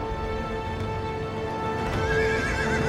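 A horse gallops with a steady drumming of hooves beneath a sustained tonal backdrop, and near the end a wavering, rising whinny rings out clearly above the hoofbeats.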